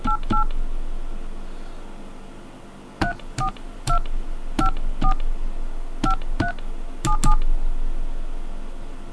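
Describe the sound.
A telephone keypad is dialed with touch tones, giving a series of short, clear beeps with faint key clicks. The beeps come in quick bursts separated by brief pauses, over a low background hum, with no talking.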